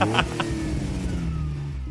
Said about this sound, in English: This episode of the Chase Report is brought to you by Ferraris. Michael, you're a fucking legend. I don't know why everyone else isn't driving these things around. They're so good.